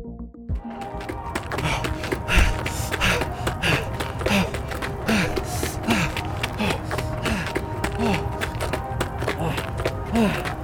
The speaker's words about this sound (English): The man in front of you catching his breath